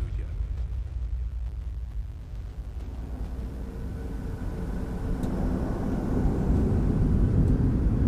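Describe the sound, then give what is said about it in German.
A DC-10 airliner takes off on an afternoon departure, its low engine roar building steadily and growing louder through the second half into a broad, rumbling surge. “Die DC-10 verlässt an diesem Nachmittag um kurz nach drei den festen Boden und hebt ab.”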